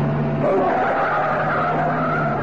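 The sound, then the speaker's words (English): Tyres screech loudly and steadily as a car is driven fast round a corner during a street chase, the squeal continuing unbroken over the engine noise. “And another one. Nice driving. Now you've got a clear run down Oxford Road. Step on it.”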